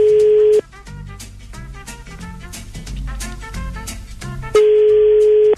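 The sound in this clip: A telephone ringback tone sounds while a call is placed: two loud, steady single-pitched tones about four seconds apart, with music playing quietly between them.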